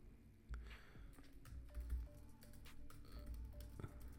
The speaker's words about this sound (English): So let me just type this.